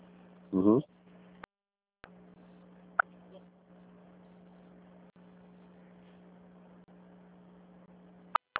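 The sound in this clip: Telephone line tones during a call transfer: a steady low hum over faint line hiss, broken by a few sharp clicks and brief dropouts, after a short louder burst at the start.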